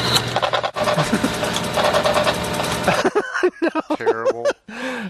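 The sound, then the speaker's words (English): A teletype machine runs as a sound effect, a dense, rapid mechanical clatter for about three seconds before it stops and a voice speaks. “Teletype machines. Teletype running sound effect library.”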